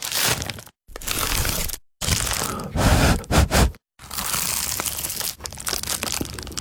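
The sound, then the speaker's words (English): Crunching and crackling of biting into an award-winning pie, a few loud, crisp bursts of crunch separated by brief silences, with no voices. “that was the sound of an award-winning dad's pie.”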